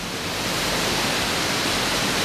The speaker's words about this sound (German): Hier schießt das Wasser über die Felsen.